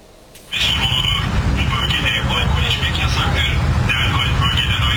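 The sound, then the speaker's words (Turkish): A police drone's loudspeaker blares a warning at people drinking alcohol in a banned area of Istanbul. The harsh, amplified voice cuts in abruptly and stays loud and distorted over a low, steady rumbling hum. “Kamu düzenini bozanlar polis dronlarıyla böyle uyarılıyor.”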